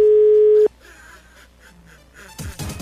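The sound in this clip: A telephone dial tone sounds while someone calls a radio station's studio in Alto da Lapa: a steady, loud, continuous hum holds for over half a second, then cuts off abruptly and gives way to quieter scattered noises.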